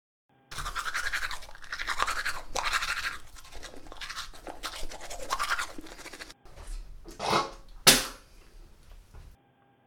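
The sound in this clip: Teeth being brushed with a toothbrush: a long run of many rhythmic, bristly scrubbing strokes, then a short gap and a few brief, louder, sharper sounds.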